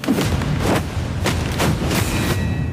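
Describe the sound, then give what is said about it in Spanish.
Gunfire in a film scene: several heavy, booming shots burst through a dense, loud wash of noise, coming in an uneven rhythm with no voices. “¿Por qué le disparan a usted?”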